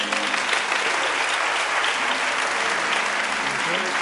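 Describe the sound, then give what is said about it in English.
Congregation applauding during a church service: loud, dense clapping that holds steady from start to finish. “Come on, give him a hand clap. Come on. Come on.”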